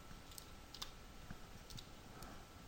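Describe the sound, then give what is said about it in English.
Typing on a computer keyboard: faint, sparse clicks of keys pressed at an irregular pace, very quiet and with no voices. “not typing so well today, which is unfortunate for you”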